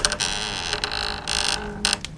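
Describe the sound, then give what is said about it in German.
A door creaks slowly open in a spooky hall, a drawn-out, grating squeal that swells louder in a few bursts and holds steady over its length. “Langsam quietschend öffnet sich eine Tür.”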